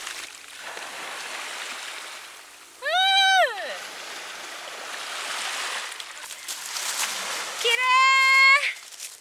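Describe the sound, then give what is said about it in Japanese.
Gentle, calm waves washing over a gravel and pebble beach, heard as a soft, steady hiss and wash throughout, with two brief, louder tonal voices rising above it. “あの波がね穏やかなんだね”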